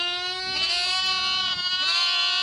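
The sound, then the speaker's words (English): Lambs bleat in a sound effect, giving a sustained, wavering, nasal cry that holds at steady loudness for a couple of seconds with no other sound. “Lambs, then silence.”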